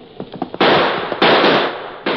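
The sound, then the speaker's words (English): Gunshots ring out in an Old West canyon shootout: three loud, sharp reports, each with a long, hissing tail. A few fainter, quick thuds come before the first shot. “That last shot hit home.”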